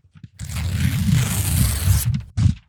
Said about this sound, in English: It's me tearing up the contract. Yeah. I'm tearing up the contract